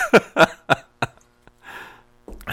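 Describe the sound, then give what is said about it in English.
Throat clearing and coughing from someone with something stuck in the throat: four short, rough bursts, then a longer breathy rasp and another gravelly sound at the end. “Hold on. They'll wait. All right, hold on. Got something stuck in my throat.”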